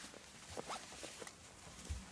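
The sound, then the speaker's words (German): Faint rasp of a zipper being closed on a piece of clothing, a few quiet, brief zips amid soft rustling. “Hast du nicht noch einen Reißverschluss zu machen?”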